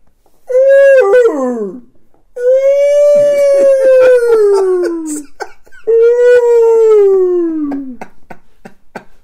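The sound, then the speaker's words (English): A voice imitates a blue whale mating call with three long, loud howling tones, each gliding downward in pitch, the first short and wavering, the next two drawn out and sliding slowly lower. “that is the blue whale mating call”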